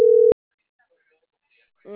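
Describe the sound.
A single short telephone busy-signal beep, a steady mid-pitched tone that cuts off abruptly, followed by silence before a voice starts speaking at the end.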